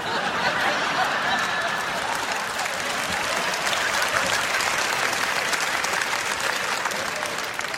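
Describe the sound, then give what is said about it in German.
Hand clapping from a crowd, a dense and steady wash of applause that holds at an even loudness for the whole stretch with no clear individual claps or pauses. “Klatsch in die Hände.”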